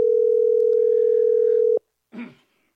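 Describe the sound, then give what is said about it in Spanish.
A telephone ringback tone sounds on an outgoing call that goes unanswered. A single steady, low, loud tone holds for under two seconds, then cuts to silence, followed by a short, fainter burst of sound. “Una vez más le estamos llamando a Percy Bazán.”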